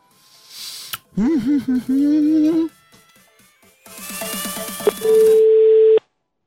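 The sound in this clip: Telephone being dialed live for a call. Warbling electronic tones and a noisy stretch lead into a steady, flat tone lasting about a second at the end. A wavering, voice-like sound comes earlier.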